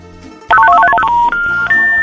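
An incoming call sets off a phone ringtone: a quick run of bright electronic beeping notes, then a few longer held tones, loud and with no voices.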